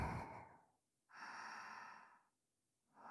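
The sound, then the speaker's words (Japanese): Airy breaths drawn deeply through the nose during a guided relaxation, a few soft breaths separated by quiet pauses, with one long steady breath in the middle and no talking. “ほら、鼻から大きく息を吸って”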